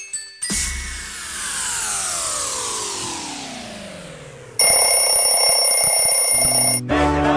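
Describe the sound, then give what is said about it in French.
An alarm clock rings: a loud, steady electronic ringing that lasts about two seconds and then cuts off, preceded by a long falling whooshing sweep. “Allez, faut se lever, c'est l'heure du coup de boost. Le deuxième réveil de la journée.”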